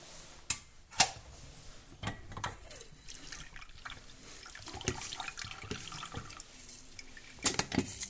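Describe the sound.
Tap water runs into a sink as washed fruit is rinsed, a steady quiet splashing broken by several sharp knocks and splashes, with no talk.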